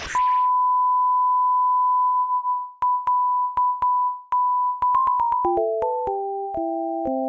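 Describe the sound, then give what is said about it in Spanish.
A TV channel's technical-difficulties warning tone starts as a steady, piercing high beep. The beep is broken by sharp clicks and short gaps, then moves into a stepped series of lower electronic tones. “Staff se quedó solo en el estudio, pero ya no tiene nada que transmitir, así que activa el aviso de fallas técnicas del canal.”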